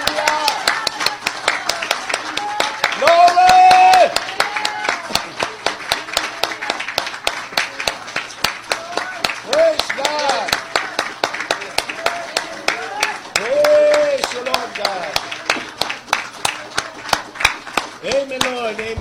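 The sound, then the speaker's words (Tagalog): A church audience clapping in praise during a New Year service: sharp, steady rhythmic claps keep time throughout, under a pastor's voice. “Tulungan niyo po akong palakpakan ang Panginoon.”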